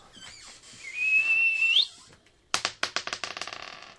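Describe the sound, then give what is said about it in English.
A person whistles one steady, clear note for about a second, the pitch sliding upward at the end, during a tabletop game session. After a short pause, a quick run of sharp clicking taps follows and grows denser. “I'm going to whistle.”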